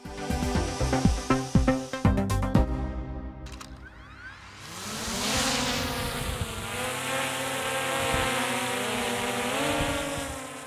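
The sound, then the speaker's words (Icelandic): A small flying drone's rotors spin up into a sustained, high buzzing whine that climbs in pitch and then holds steady, coming after a few sharp clattering knocks. “Þetta hljóð þekkja orðið flestir. Þetta er hljóð í dróna, litlu flygildi sem á áratug hefur orðið gríðar vinsalt meðal ljósmyndara, áhrifavalda og dellukalla.”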